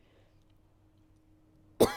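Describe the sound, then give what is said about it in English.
A single loud, sharp cough from someone who is ill bursts out at the very end, after nearly two seconds of near silence with only a faint low hum. “Sorry, I can't stop coughing.”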